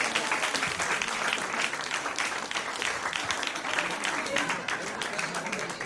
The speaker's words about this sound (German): Mach mal Applaus, mach mal Applaus.